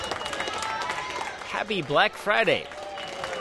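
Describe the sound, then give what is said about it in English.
Employees and customers cheer in a toy store at the kickoff of the holiday shopping season, a crowd shouting together in two loud bursts over a constant busy background hubbub. “That's the sound of employees and customers at the Toys R Us in Times Square cheering the kickoff of the holiday shopping season.”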